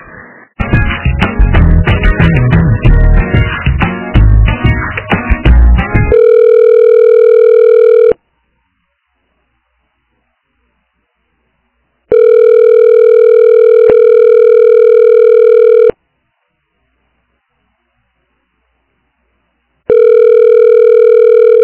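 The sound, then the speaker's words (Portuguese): Ringback tone of a telephone ringing unanswered on the other end: after a stretch of noisy, garbled line audio, a steady buzzing ring sounds in long repeated pulses with silent gaps between them. “eles, o telefone toca no lado deles, eles não atendem mesmo”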